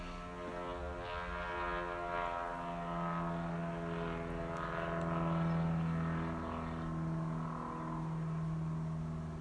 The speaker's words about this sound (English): waiting for an airplane here